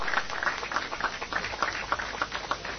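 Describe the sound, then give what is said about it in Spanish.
Applause at a ceremony where a Pentecostal church representative is called up to receive a donation, a steady, dense patter of many hands clapping that holds at an even, moderate level throughout with no voices on top. “Fuerte el aplauso para él.”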